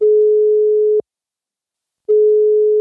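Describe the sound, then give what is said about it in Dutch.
A telephone ringing tone while calling someone: a loud, steady single-pitch beep that breaks off into about a second of silence and then sounds again, alone and unchanging. “dus we gaan hem meteen bellen”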